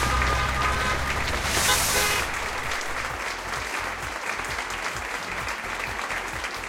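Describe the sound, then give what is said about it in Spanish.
Applause from an audience at an awards ceremony for free games: steady, dense clapping that stays loud and even from start to finish without a break. “Venga, un aplauso, por favor.”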